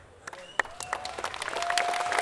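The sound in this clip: Audience applause at a concert tribute to late musicians: scattered claps that swell into steady, dense clapping, growing louder toward the end.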